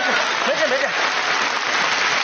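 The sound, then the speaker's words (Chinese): Audience applause encouraging a nervous contestant on an entrepreneurship show, a steady, dense wash of clapping with a voice briefly heard over it early on. “来掌声鼓励一下。”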